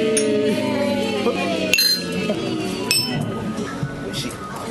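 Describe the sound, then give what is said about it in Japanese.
Glasses of whisky highball clink in a toast, with two sharp, bright clinks ringing out over lively talking voices. “はい、それでは乾杯しましょう。”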